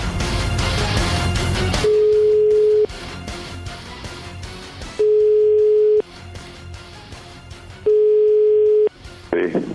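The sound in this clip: Ringback tone of a telephone call to a home, in Italy: three long, steady, mid-pitched tones of about a second each, evenly spaced with several seconds between them, while voices and other sound fill the gaps.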